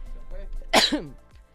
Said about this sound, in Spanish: ¡Ay, Dios santo! ¿Por qué me dio estornudo?